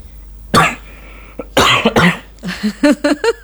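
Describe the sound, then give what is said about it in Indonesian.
A person coughs in a rough, chesty fit: one sharp burst, then two heavy coughs close together, followed by several short, voiced hacking coughs in quick succession. “batuk ya. Aduh, mohon maaf ya”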